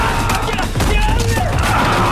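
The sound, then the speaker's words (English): A soldier fires on an encroaching crowd of zombies, and rapid gunfire cracks out in dense bursts over a chaotic, loud mix of crashing noise. “Brubaker looks terrified, then frowns as he opens fire on the encroaching zombie crowd.”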